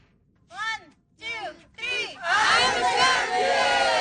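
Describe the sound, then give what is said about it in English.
Kids playing soccer on Penelakut Island, off Vancouver Island, shout three separate high calls, then break into a burst of loud, continuous cheering and yelling from many young voices. “So that's the sound of soccer players on Penelakut Island, just off Vancouver Island.”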